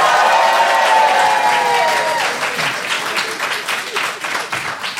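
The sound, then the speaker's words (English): Loud audience applause with crowd voices and cheering at the start. The clapping then thins slightly and grows more uneven toward the end. “So please applaud for toddler pie.”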